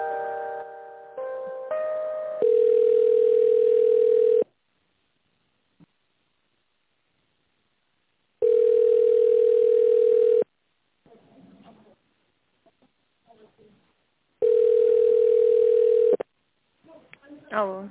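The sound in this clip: Telephone line tone while a call is put through to a company's finance director: a brief stepped tonal melody, then three long, even, loud ringback tones spaced by quiet gaps with faint clicks and noises.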